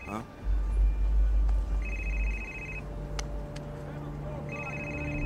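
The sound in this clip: A telephone rings after a call is placed, giving two separate bursts of steady electronic ringing over a low background rumble.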